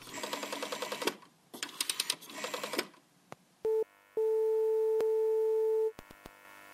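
An old telephone being dialled, heard as three bursts of rattling, ratcheting dial clicks, followed by a short electronic beep and then a long, steady line tone that cuts off.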